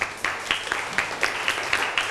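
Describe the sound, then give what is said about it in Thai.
Students applauding a classmate's work in a school lesson, with steady clapping that comes in rhythmic, evenly spaced bursts about four per second, moderately loud throughout. “นักเรียนปรบมือให้เพื่อนค่ะ”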